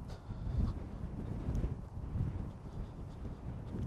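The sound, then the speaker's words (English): Strong wind blows outdoors by a castle, a continuous low rumbling roar with gusty buffeting that swells and eases. No voices are heard. “Ooh, it's a rather nasty wind. I'm going to stand behind the castle.”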